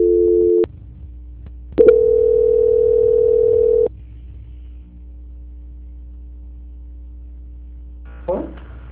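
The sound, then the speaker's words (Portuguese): Telephone line tones while a call is being transferred: a short steady tone, a pause, then a longer steady tone of about two seconds, followed by a low line hum and a brief burst of sound near the end. “Vou pedir então para o senhor aguardar em linha, que eu vou transferir para o controle de qualidade”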